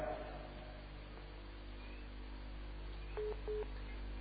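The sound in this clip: Telephone dialing tones: two short, faint touch-tone beeps close together near the end, over a steady low hum.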